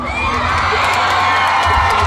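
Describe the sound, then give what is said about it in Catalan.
A crowd ovation sound effect, with loud, steady cheering, whooping and shouting from many voices that holds at an even level throughout. “Anem a dedicar una molt forta ovació.”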